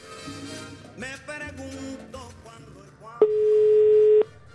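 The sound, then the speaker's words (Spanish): A single steady ringback tone on an outgoing telephone call sounds loud and level for about a second, after a stretch of quieter music. “Ahí está timbrando. Él no sabe que la vamos a marcar. Que conteste, que conteste, que conteste.”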